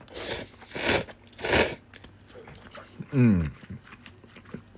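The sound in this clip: Slurping and chewing from someone eating ramen with chashu pork: three loud, broad noisy bursts in the first two seconds, then softer mouth noises and a brief hummed voice.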